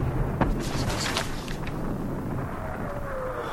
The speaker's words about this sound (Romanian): Într-adevăr se trage. Parcă undeva, dincolo de pădure.